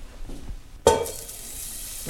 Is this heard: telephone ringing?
no